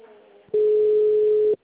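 A single steady telephone tone sounds after a bank service caller hangs up. The flat, mid-pitched beep lasts about a second and starts and stops abruptly, with faint noise before it.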